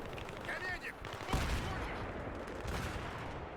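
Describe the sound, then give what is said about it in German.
Gunfire in a video game shooter as a player holds position and fires straight ahead: a continuous rattling stream of shots with one sharper blast partway through, and a voice talking over it. “Ey, Leute, ich stehe jetzt einfach die ganze Zeit hier und schieße geradeaus.”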